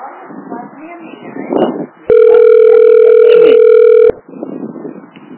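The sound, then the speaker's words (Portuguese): An unanswered telephone call rings out: a single long, steady electronic ringback tone holds for about two seconds. People talk before and after the tone. “Só chama e ninguém atende.”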